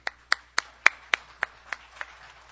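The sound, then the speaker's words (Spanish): Eight evenly spaced hand claps ring out sharply and alone, each a crisp single slap, as applause for performers on a stage set at a national symphony orchestra's cultural center. “con un gran aplauso, por favor, acá en el set”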